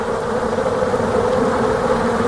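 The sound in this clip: A swarm of honeybees clustered together while producing wax makes a steady, dense buzzing drone that continues unbroken without any talk.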